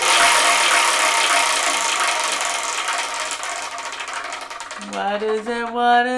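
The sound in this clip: A wheel being spun gives rapid ratcheting clicks that gradually slow and spread apart as it winds down. A short hummed melody rises over the last few clicks at the end.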